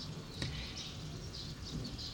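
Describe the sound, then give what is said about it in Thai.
Birds chirping out in the rice fields, a few faint, high, brief calls scattered over a steady soft background hiss. “อยู่กลางทุ่งนาทำฟังเสียงธรรมชาติ เสียงนก”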